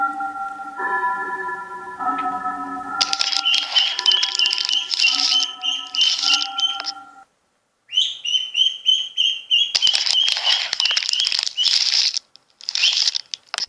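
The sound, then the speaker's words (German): A large egg hatching and a grey duckling chick emerging: crackling shell noises over sustained musical tones, then a run of high peeping chirps, followed by more bursts of crackling. “Erst ein paar Tage später schlüpft ein graues, hässliches Entlein aus dem Ei.”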